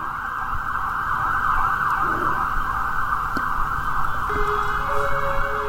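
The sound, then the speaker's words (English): An emergency vehicle siren sounds in the background, holding a loud, steady tone through the whole stretch over a low traffic rumble, with no talking. “you can probably hear it in the background, a siren coming to take me to confinement”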